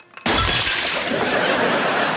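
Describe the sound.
A lamp hits the floor and shatters with one sudden, loud crash, followed by a sustained, noisy spray of breaking fragments that stays strong until the end.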